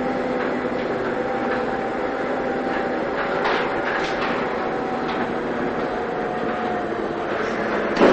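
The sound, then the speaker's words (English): A freight elevator riding upward gives off a steady mechanical rumble and hum that holds at an even, fairly loud level throughout, with a slight bump in noise at the very end. “they're riding a freight elevator up to Laura's apartment”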